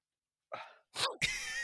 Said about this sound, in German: Ich fürchte, ich muss gleich niesen.